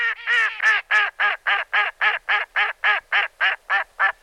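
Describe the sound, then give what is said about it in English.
A female mallard duck quacking in a long, evenly spaced series of many harsh, nasal quacks, loud and clear against a silent background, the first few coming in quicker succession before settling into a steady rhythm. “The female mallard is the duck with the quintessential quack.”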